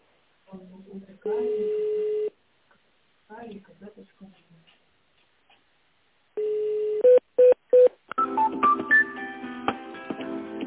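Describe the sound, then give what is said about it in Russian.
Telephone keypad tones dialing an extension on a dealership's automated phone line: a few short, sharp beeps in quick succession, then a run of bright electronic tones and chiming notes. “Наберите внутренний номер сотрудника или оставайтесь на линии для соединения с офис-менеджером.”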